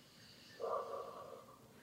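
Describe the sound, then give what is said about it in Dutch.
A single slow breath through the nose during calm breathing practice, soft and faint, swelling suddenly and then tapering away gently. “Breng je aandacht naar je ademhaling. Adem rustig in en uit via je neus.”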